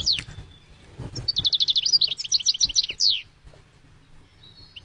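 Bird song from the species named bird of the year: a rapid run of high, bright chirps forming a trill, with a few separate high calls before and after it.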